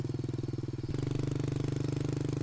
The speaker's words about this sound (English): I get myself sorted and kick the bike into gear, setting off after Bertie